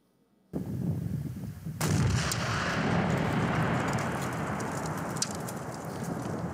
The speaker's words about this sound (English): That's tannerite, all right? Tannerite is a substance that you mix up, and then when you shoot it with a gun, it explodes, all right?